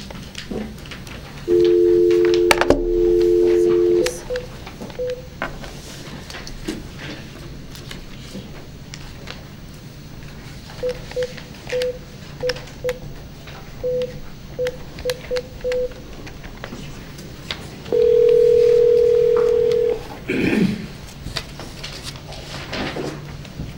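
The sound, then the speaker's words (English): Telephone tones while dialing a doctor into a board meeting on speakerphone: a long steady dial tone, then a run of short keypad beeps, then another long tone, over a faint background hum. “so we do need to get Dr. James on the phone.”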